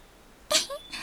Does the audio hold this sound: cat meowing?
yes